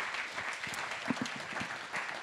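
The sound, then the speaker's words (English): An audience at a church service in New Zealand applauds a visiting pastor with another round of clapping. Moderate, scattered hand claps form a fairly soft, continuous patter with a few sharper individual claps standing out. “Can we give him another round of applause?”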